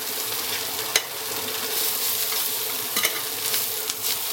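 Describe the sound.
Parsnips browning in a frying pan that holds caramelised venison juices give a steady, bright sizzle, with a few sharp clicks of stirring in the pan.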